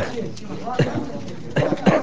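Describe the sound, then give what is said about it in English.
A wounded soldier coughs in a hospital intensive care unit while a chest drain tube removes bloody fluid from his torso. The coughs come as a few short, rough bursts. “In the intensive care unit of a hospital in the nearby city of Jalalabad, a wounded opposition soldier coughs as a doctor checks the plastic tube that's draining bloody fluid from the patient's torso.”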